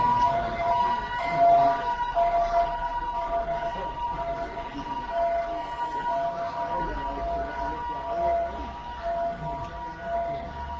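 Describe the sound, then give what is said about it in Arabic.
A fire engine siren sounds continuously over a busy background noise. Its steady wailing tone stays fairly level throughout, with no clear breaks. “مطافي المطافي خليك، مش بوليس النجدة.”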